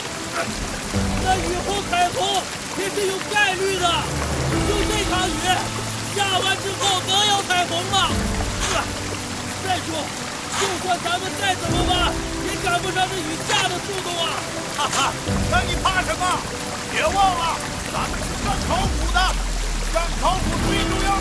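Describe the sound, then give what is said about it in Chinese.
Heavy rain pours in a dense, constant wash of watery noise for the whole stretch, with people talking and shouting over it. “不是， 这雨也太大了吧！”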